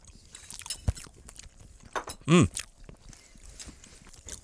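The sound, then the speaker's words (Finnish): Soft, moist chewing and small crunchy bites on liver casserole flavoured with salmiakki sound faint and irregular, broken by a short hummed voiced sound partway through. “Maksalaatikko ja salmiakki tässä mun mielestä tuoksuu. Onko tämä tummempaa kuin normaali maksalaatikko? Varmaan vähän harmaampaa kuin normaali maksalaatikko. Okei, maistetaan.”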